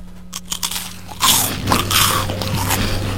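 Crunchy bites into a vanilla wafer cookie, a few crisp, crackling snaps followed by moist chewing that goes on steadily without talk.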